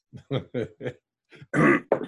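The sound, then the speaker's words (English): A person clears their throat with a few short, rasping bursts, followed by a louder, longer harsh clearing and a final short grunt. “hang on, I got a frog in my throat.”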